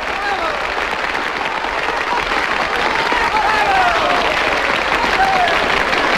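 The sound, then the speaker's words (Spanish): Sustained applause follows a song, a dense and continuous patter of many hands that grows slightly louder toward the end and carries on without pause. “seguimos con los aplausos”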